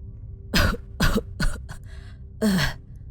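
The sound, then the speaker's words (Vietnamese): An old man coughs while clutching his chest: a few hoarse, harsh coughs in a short uneven series with brief gaps, alone over a low steady background hum. “Ông thầy Hai ôm ngực ho lên khù khụ mấy tiếng”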